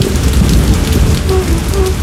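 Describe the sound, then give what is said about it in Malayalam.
Heavy rain pours down steadily, a loud, continuous hiss and rumble with no breaks or pauses, heard while sitting on a verandah. “നല്ല മഴ.”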